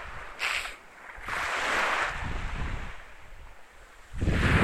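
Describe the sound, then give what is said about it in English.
Wind blowing over a beach ridge at sunset: a broad rushing roar that swells and eases in several gusts, growing strongest at the end, with no voices. “And yes, there's wind. It had to be wind. There had to be wind.”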